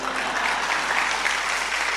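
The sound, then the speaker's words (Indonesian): Audience applause breaks out during a talk on Islamic history in Java: dense, steady clapping from many hands that holds at an even, moderate level for the whole two seconds. “Nah tepuk tangan, tidak usah malu-malu.”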